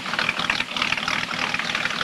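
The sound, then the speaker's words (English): A fishing boat motor idles with a faint, steady low chug under a broad hiss that stays even throughout. “Sandy and his father walk to Porter's fishing boat, and Porter starts the motor.”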